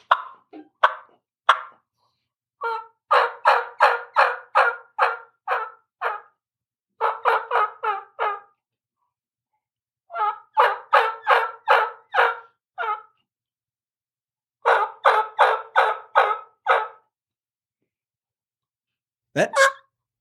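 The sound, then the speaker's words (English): Yelping from a turkey call imitating a gobbler: runs of quick, quivery, high-pitched notes in several bursts separated by short pauses, with faint whining behind them and a lone sliding squeal at the end. “That really sounded like a gobbler. No, there you can even hear little whines in the back of it. It's a quivery sound.”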